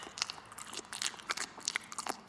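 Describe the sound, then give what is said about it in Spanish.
Faint chewing and biting as a hurried nurse, seated on a small bench, eats a tamale: many small, crisp crunching clicks scattered irregularly over a soft background hiss. “Al momento llega una enfermera apurada. Se sienta en un banquito y come su tamal inquieta, mirando el reloj.”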